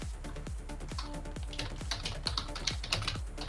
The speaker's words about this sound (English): Oh, type the title, I can do that. Excuse me as I...